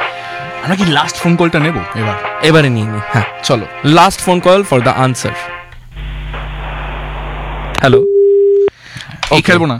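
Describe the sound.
A telephone call that fails to connect: a burst of line noise, then a single steady electronic tone, with people talking before and after it.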